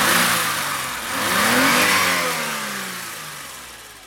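A BMW car engine with electronic ignition and fuel injection revs as the throttle linkage is worked by hand. The note swells up to a loud peak, then slowly eases back down.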